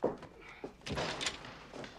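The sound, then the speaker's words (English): A car door is shut outside a clinic after an injured dog is lifted from the passenger seat: one dull, low thud amid soft rustling movement. “shuts the door and they rush toward the clinic.”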